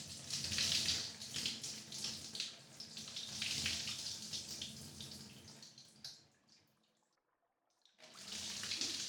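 Warm water pouring from a tap to rinse someone off at a bath: a loud, hissing rush of flowing water that fades into a brief silence, then starts again.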